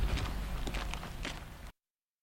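Footsteps of people walking toward an exhibition hall: a few quiet, irregular steps that make soft, faint clicks against a low background hum.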